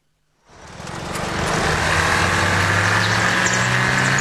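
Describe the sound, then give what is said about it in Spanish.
An Audi Q5 2.0 TFSI mild hybrid engine comes in after a moment of silence and swells into a loud, steady drone with a low humming tone underneath, holding even to the end. “El nuevo Audi Q5, con motor 2.0 TFSI Mild Hybrid, fluye con precisión y eficiencia.”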